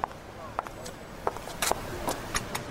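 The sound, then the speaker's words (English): A pedestrian walks up on a city street, with faint footsteps landing in a loose, uneven rhythm over low background noise. “Why did I decide to walk to work? Come on, these lights take forever.”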